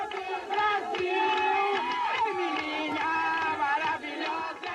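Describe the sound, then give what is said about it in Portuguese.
A studio audience goes wild as singer Emilinha enters the Rádio Nacional studio, a loud, dense wall of high-pitched screams and cheering that stays sustained throughout. “Quando Emilinha entra no estúdio, o público vai à loucura.”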